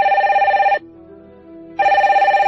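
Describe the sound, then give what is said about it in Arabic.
A phone rings in two loud bursts of a warbling electronic tone, separated by a pause of about a second, with no voices. “ما أن دخلتها رن هاتفها.”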